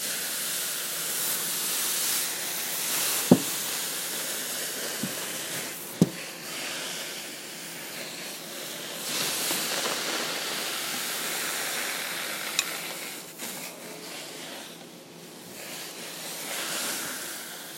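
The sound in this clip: Steam sizzle from a hot clothes iron touching water while ironing a blouse: a faint, steady hiss throughout, broken by a few sharp clicks.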